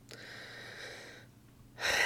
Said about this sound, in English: Another deep breath. I need it.